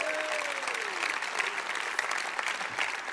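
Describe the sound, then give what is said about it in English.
Audience applause at a church service: a steady, fairly faint, even wash of clapping with no one voice standing out. “Let's put our hands together.”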